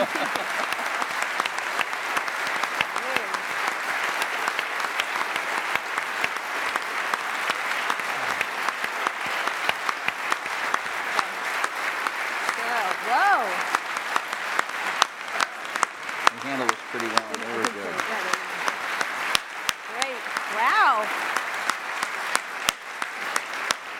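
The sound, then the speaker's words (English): Sustained applause from an audience giving a standing ovation: dense, steady clapping for about twenty-four seconds, with a few voices rising above it at times. “Oh, standing O. Thanks. Have we ever had a standing O here?”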